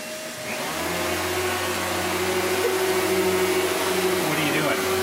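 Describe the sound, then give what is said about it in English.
A vacuum cleaner is running while a child vacuums. The motor quickly rises to a steady, loud drone with a constant tonal whine that holds without a break. “Vacuuming. Is it as fun as you expected?”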